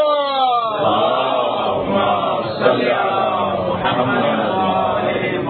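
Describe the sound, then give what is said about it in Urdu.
A crowd at a religious sermon on Imam Ali chants in response to the Naara-e-Haidari call. Many voices join in a loud, sustained unison shout that swells and falls in repeated waves for several seconds. “نعرہ حیدری، آواز بلند”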